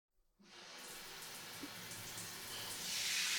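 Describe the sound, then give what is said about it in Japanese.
Water runs from a salon rinse spray, washing shampoo out of hair in a steady, faint hiss that starts abruptly and grows slightly louder toward the end. “ではもう一度シャンプー流しますので、このままもうちょっとだけ失礼します。”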